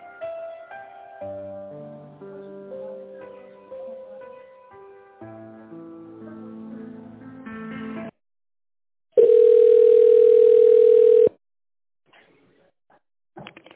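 A telephone ringback tone plays while a call to a company's secretary connects. Melodic hold music comes first, then a single steady mid-pitched tone lasting about two seconds, followed by near silence.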